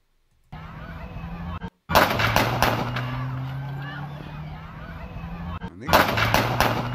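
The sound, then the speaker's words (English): Police gunfire aimed at a driver in Wisconsin: a rapid volley of sharp bangs, a pause, then a second quick burst of shots over a loud, noisy background with voices. “Oh, cops are shooting at him and shit.”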